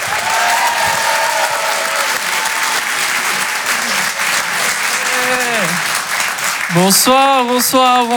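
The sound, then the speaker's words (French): A comedy club audience applauds a comedian being introduced on stage, with loud, continuous clapping throughout. Voices and cheers rise above the applause at times, most clearly near the end. “Faites du bruit s'il vous plaît pour Ilyes Mella.”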